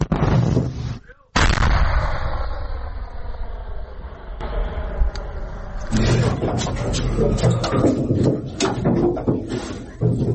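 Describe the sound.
An artillery gun fires a shot, a loud booming blast followed by a long rolling rumble, with voices talking over the aftermath.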